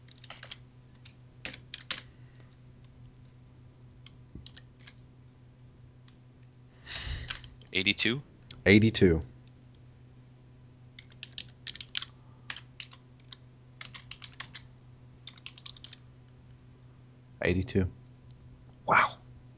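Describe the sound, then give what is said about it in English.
Typing on a computer keyboard: many quick, light keystroke clicks, sparse at first and then in denser clusters, over a steady low hum. “I have to type in the periods.”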